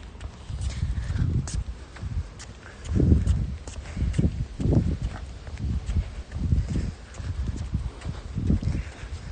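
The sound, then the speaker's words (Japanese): Footsteps of a light jog set a steady rhythm of soft, low thuds, many in a row at an even pace, with a faint rustle between strides and no voices. “今日はちょっと軽くジョギングなんで”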